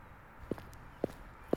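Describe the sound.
Three evenly spaced footsteps from a radio drama effect of a little girl walking off, each a short, clear knock standing alone against a faint background.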